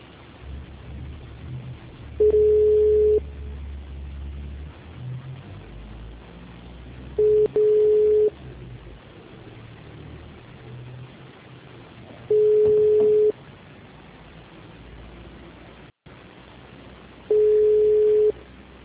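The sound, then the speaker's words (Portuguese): Telephone line tone after a dropped call: four steady beeps, each about a second long, repeating at even intervals of roughly five seconds over a faint hiss. “Acho que caiu a ligação. Caiu. Deve ter caído a ligação dele.”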